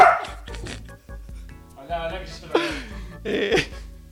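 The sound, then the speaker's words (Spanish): Dog barking from a dog that is being chased, a few sharp barks breaking through amid overlapping voices and general commotion, moderately loud and irregular. “Petro está corriendo al perro”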